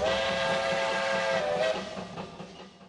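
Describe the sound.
A train whistle sounds as a loud, steady, sustained tone over breathy hiss, then breaks off and trails away into fading rumble.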